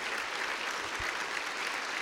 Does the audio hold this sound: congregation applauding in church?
yes

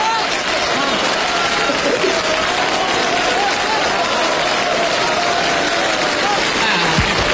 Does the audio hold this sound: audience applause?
yes

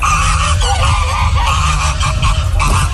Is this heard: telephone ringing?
no

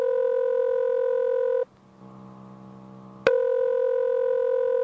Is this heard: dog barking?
no

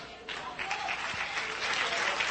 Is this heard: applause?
yes

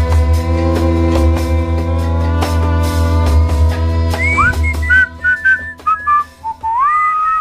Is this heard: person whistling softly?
yes

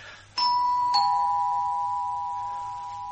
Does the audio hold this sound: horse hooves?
no

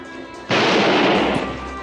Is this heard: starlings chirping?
no

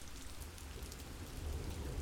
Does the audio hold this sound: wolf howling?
no

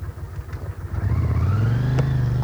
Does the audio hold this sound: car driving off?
yes

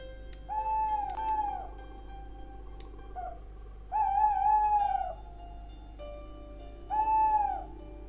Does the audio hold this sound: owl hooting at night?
yes

